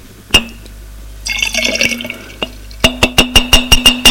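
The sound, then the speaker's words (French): Liquid is emptied out of a glass with a splashing, gurgling pour, then a brief pause and a rapid run of evenly spaced sharp drips or taps. “Vide le verre.”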